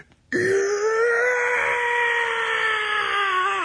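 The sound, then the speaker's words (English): A classic stock movie scream sound effect: one long, loud, drawn-out cry that holds a steady pitch for over three seconds, then dips slightly as it cuts off. “that scream. They call it the Wilhelm scream. I think that one is actually called the Howie scream.”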